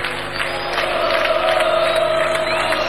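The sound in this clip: A concert crowd roars and cheers in a stadium in Buenos Aires during a rock festival, a loud, steady wash of voices that holds throughout without a break.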